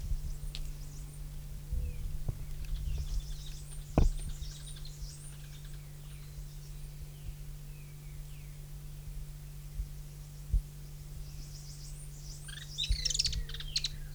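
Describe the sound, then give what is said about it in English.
Several birds sing in faint, high chirping bursts over a steady low electrical hum. The calls come in scattered clusters, with a brighter flurry near the end. “several birds”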